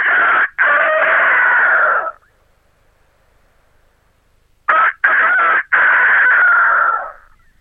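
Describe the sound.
A person's voice imitates a local rooster crowing, giving two loud, strained cock-a-doodle-doo calls, each broken into short bursts and a long held note, with silence between them.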